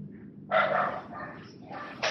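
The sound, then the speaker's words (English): A dog barks inside a house, giving a few short, sharp barks in quick succession over a low, steady background. “You hear a dog barking inside.”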